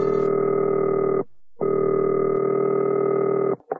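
A steady telephone dial tone hums loudly, broken once by a short gap before resuming for a few seconds, then ending with a brief click.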